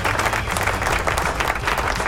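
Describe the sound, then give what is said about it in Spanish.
An audience breaks into loud applause, thick rapid clapping mixed with crowd noise that holds steady for the whole stretch. “Aplauso a Galdi Tommy, el hombre de las fotos.”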